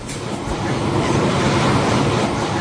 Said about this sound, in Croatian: Ja prvi put u životu u podzemnoj željeznici. I putujemo ispod zemlje